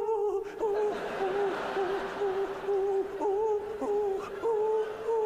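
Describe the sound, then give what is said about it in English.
Owls hooting while mating give a sustained, wavering mid-pitched call that carries on almost without a break through the whole stretch. It dips and rises in pitch now and then, with no talk over it. “Yeah, they just sound sexy, don't they? Owls humping away like that.”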